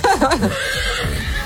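A horse neighs in a loud, brief whinny, its wavering pitch shaking and falling as the call trails off.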